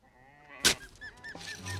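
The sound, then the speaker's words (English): Sheep bleat in panic in a pen in the desert. A sharp burst is followed by several short, wavering nasal bleats of moderate loudness, with a low rumble underneath toward the end. “In a nearby pen, the sheep start to run around in a panic.”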